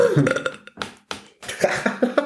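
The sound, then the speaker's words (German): Burping: a few rough, croaky belches in irregular bursts, loud and gravelly, with short pauses between them. “wenn du nicht rülpst, dann weiß ich immer nicht, wann zu Ende ist”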